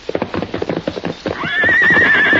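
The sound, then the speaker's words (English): Horse hooves clip-clop in a quick, uneven rhythm, then the horse lets out a long, high, wavering neigh that carries to the end. “Silver watch corral. You see? Yes. What is it, fellow? Come on, then. I'll walk to the corral with you. Look. Silver see colt.”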